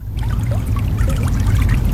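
Water pours and gurgles steadily as a dragon and the bull-like Lembu Suwana vanish into a river, a continuous rushing, trickling wash with no voices.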